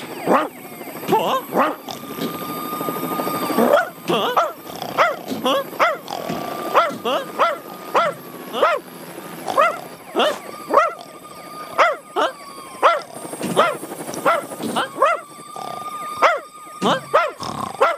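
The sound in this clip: Odie the dog barks over and over in an uneven rhythm: many loud barks and yips, broken up by a few drawn-out, whining howls.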